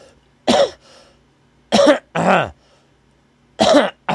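Someone clears their throat because of allergies, producing several harsh, raspy bursts separated by brief pauses. The bursts are loud and heard alone, with no talk.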